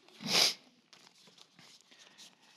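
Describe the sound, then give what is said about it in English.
Paper envelopes are handled: one loud, sharp crinkle of paper comes first, followed by soft, scattered rustling. “But here's the envelope system. Got some envelopes here.”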